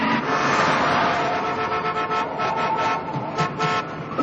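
A car engine roars steadily under hard acceleration during a chase, loud and continuous with a dense, grinding tone throughout.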